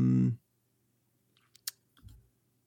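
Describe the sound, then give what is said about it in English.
A computer mouse click opens a bio page. It is one crisp, sharp tick, with a couple of fainter ticks just before it, in near silence. “I think I will click on the bio and just and see if it has a, they put a lot of effort into this.”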